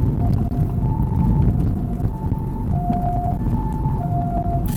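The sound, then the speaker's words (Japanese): An ambulance siren sounds a repeating two-tone wail, alternating between high and low notes at an even rhythm over a steady low rumble, with no voices. “あ、救急車救急車。”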